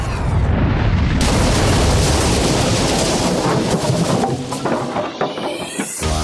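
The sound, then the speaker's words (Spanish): A futuristic plasma cannon firing: a loud, sustained blast of roaring, crackling noise that holds steady for several seconds before thinning out near the end. “Esto es, un cañón de plasma.”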